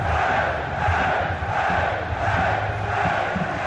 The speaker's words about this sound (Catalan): I escolta com ho celebraven a l'estadi després del partit, els jugadors anant cap a la grada i alçant els braços.